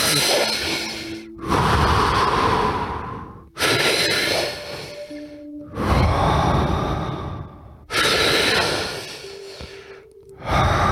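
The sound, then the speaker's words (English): Deep, full belly and chest breathing: a slow series of long, loud inhales and exhales, each a broad rushing breath with no hold between them and short gaps separating the breaths. “Breathing in fully and then exhaling fully. No hold. Breathe in, fully out. So it sounds like this.”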